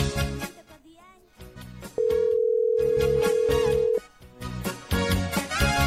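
A telephone call goes unanswered on a phone-in line: one long, steady electronic tone holds for about two seconds, with busy music before and after it.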